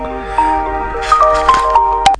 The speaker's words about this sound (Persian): گوشیم زنگ خورد.